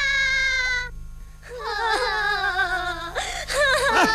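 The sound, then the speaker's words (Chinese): A child cries in wavering, high wails with a short gap, then several sobbing cries that break and bend in pitch, fairly loud throughout. “别哭别哭”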